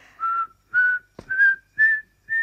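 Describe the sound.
A person whistles five short, steady notes in an even rhythm, each a clear, fairly high tone, with a brief sharp knock between the second and third notes and no talking.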